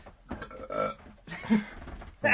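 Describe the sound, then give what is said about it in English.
A person burps into a microphone, producing a few rough, voiced bursts that are fairly loud, with the last one short and forceful. “I've got a burp ring, sorry. I'm going to do it a bit more discreetly than Kirby.”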